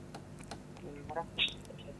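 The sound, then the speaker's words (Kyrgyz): Soft clicking of a computer keyboard as a caller's name is typed in, a few faint, irregular taps over a quiet background. “Рахмат, сиздин атыңызды жазып коюн.”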